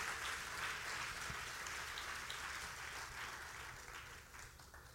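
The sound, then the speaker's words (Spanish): Applause from a church audience during a bilingual service, a faint, continuous patter of many hands that thins slightly toward the end. “Vamos a darle un aplauso al Señor. Put your hands together for the Lord.”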